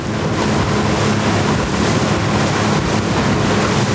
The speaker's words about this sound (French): Dans le bruit du moteur, le bateau rentre lentement vers Libreville.